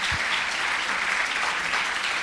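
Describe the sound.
An audience applauds, a dense, steady wash of many hands clapping at an even loudness throughout, with no voices over it.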